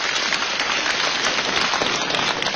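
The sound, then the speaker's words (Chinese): Applause from the audience at a crosstalk (xiangsheng) comedy performance: dense, steady clapping that fills the whole moment without a break. “感谢您的掌声鼓励”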